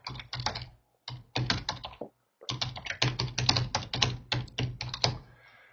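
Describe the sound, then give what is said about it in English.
Typing on a computer keyboard: many quick, crisp key clicks in irregular bursts, broken by two brief pauses, with no talking. “And I can't type for beans. So I'll get rid of the typos.”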